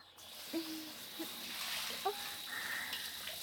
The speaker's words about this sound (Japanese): 名残惜しいですけど流しちゃいます。手のひらでこすりながらシャワーを当てて、